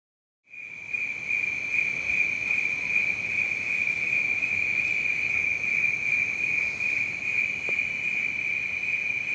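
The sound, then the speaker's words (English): Cicadas and crickets drone in the rainforest on a hilltop just before sunrise, heard from just outside a bedroom window. After a short silence, a shrill, steady buzz at a single piercing pitch starts abruptly and holds unbroken at an even loudness. “BFM 89.9, what you're hearing are the sounds of cicadas and crickets just outside my bedroom window overlooking the rainforest atop Fraser's Hill”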